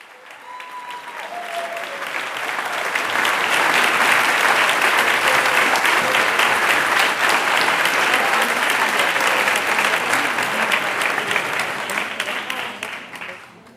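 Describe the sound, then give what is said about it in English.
Applause and cheering fill a hall as American artist Carolee Schneemann accepts the Golden Lion for Lifetime Achievement. The sustained clapping swells quickly, holds dense and loud for about ten seconds, then thins toward the end. “you with the celebratory sounds of American artist Carolee Schneemann accepting the Golden Lion for Lifetime Achievement”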